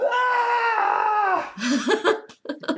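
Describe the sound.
A voice imitates a prisoner's long, constant scream, a steady high wail held for over a second, then breaking into shorter voiced bursts.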